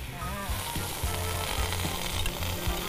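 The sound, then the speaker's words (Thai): Tamarind sauce sizzles in a hot pan, made from tamarind juice added first as the base for a sauce. The frying hiss is loud and steady throughout, with a constant crackle. “ต่อไปเราจะทำน้ำซอสนะส้มมะขามใส่ลงไปก่อน”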